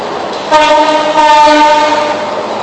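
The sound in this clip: Train passing: a loud, sustained horn chord sounds over a continuous rolling rumble for about two seconds, then the rumble carries on alone.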